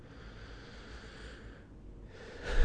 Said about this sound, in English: Nice big deep breath.